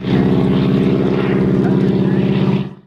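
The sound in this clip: A propeller airplane's engine drones steadily overhead during a wing-walking charity flight in England. The deep, rumbling tone holds loud and even throughout, then fades out quickly at the end.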